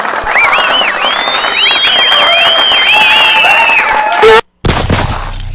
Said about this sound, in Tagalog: So gani, deserve gid palakpakan.